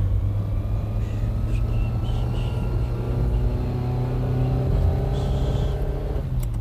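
A car engine on a drive out of town gives a steady low rumble throughout, with no clear surge of acceleration or distinct pass-by.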